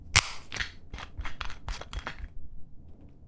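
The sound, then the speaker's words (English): A screw cap twisted open on a wine bottle: one sharp crack, then a quick run of faint clicking snaps as the seal gives way, followed by quiet. “Screw cap. Boom, easy.”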